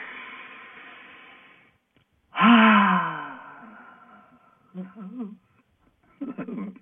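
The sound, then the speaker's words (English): A long, steady inhale of breath draws in softly, then a loud, voiced exhale follows as a deep sigh that trails off, followed by a few brief vocal sounds. “I'll take a deep breath and I'm going to pulsate love to everyone in the universe as I exhale.”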